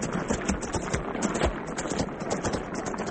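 Horse hooves clip-clop as a rider goes on ahead, a steady run of many fairly loud hoof beats over a rough, noisy background with no talk.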